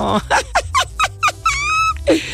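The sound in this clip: A dog yips in a rapid series of short, high, whining cries, each dropping in pitch, then gives a longer drawn-out whine and one last yelp.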